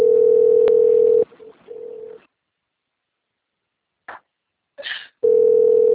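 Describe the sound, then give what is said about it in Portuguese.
Telephone tone on a call from a bank: a loud, steady, mid-pitched beep lasts about a second, then a long pause with a few faint brief noises, then the same steady tone returns. “Eu vou atender aqui, que é do Banco do Brasil, rapidinho, amiga.”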